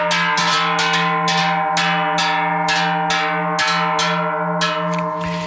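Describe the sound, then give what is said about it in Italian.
A deep-toned cast cowbell, a size number 12 made in a foundry, is struck many times in a steady, even rhythm, each loud metallic clang ringing into the next with a sustained low hum underneath. “Questo dunque era il suono di un campanaccio prodotto dalla fonderia di Alexis”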